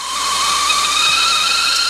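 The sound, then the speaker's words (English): A boiling kettle whistles in a steady, piercing, high-pitched tone layered with rushing steam hiss, loud and unbroken from start to finish with no other sounds. “The much maligned boiling kettle.”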